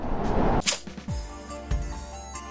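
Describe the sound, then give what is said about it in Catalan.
An arrow whooshes and strikes with a sharp impact, a sound effect in a narrated tale of a magic arrow carried by a monsoon wind into two people's chests. A brief hiss comes before the hit, and low sustained tones follow. “un vent monsó que bufava en aquell moment els va portar una fletxa al pit de tots dos.”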